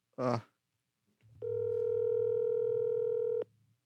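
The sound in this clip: A telephone ringing tone while placing a call: one long, steady electronic tone with clear overtones, lasting about two seconds, alone. A brief vocal sound comes before it.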